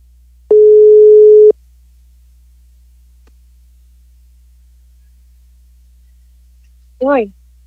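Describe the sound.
A telephone ringback tone sounds while a call is being placed: one steady, mid-pitched tone lasting about a second, then a long silence. A brief voice is heard near the end.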